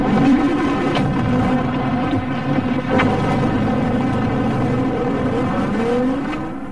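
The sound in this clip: A car engine hums as the vehicle arrives. The steady motor drone holds at an even loudness for several seconds, then eases off slightly at the very end.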